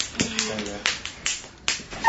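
Sharp slaps on buttocks during a spanking land as several crisp, smacking hits at uneven intervals, each fading quickly between strikes.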